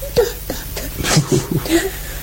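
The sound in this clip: A little girl crying and whimpering in short, broken, wavering sobs with a high, strained voice. The sobs come in quick irregular bursts.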